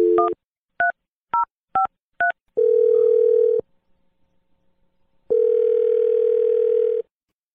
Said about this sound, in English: Here we go. Dial in number.